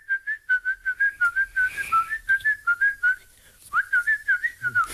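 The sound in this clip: A person whistles a tune as a string of clear, bright notes at a lively pace, with a short gap partway through before the melody resumes.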